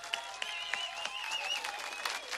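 A crowd applauds at a Czech band's concert. Dense, steady clapping carries sharp individual claps throughout, with no talking.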